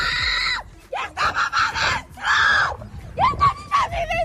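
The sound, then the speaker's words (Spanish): A woman screams desperately as flames close in on her house during a wildfire, giving several loud, high, strained cries in separate bursts with short gaps between them. “una mujer que chilla desesperada viendo cómo las llamas van a alcanzar su casa en Villa del Prado”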